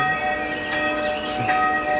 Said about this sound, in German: Viel schöner als die altgeniete Glocke.